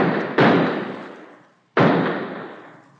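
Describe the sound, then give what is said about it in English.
Two loud, sharp gunshots fired into the air from a gun, about 1.4 seconds apart. Each bang is followed by a long fading tail, with no voices. “first empty the gun in the air. There are 3 bullets still in it.”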